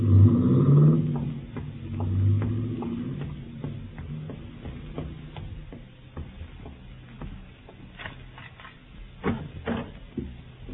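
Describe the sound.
A car pulls away and drives off. A low engine rumble is strongest at the start and then fades, followed by faint scattered clicks and knocks.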